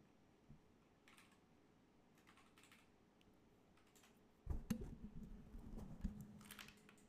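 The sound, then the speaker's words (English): Typing on a computer keyboard with both hands: sparse, quiet keystrokes at first, then a denser, louder run of rapid clicks through the second half. “let me type with two hands”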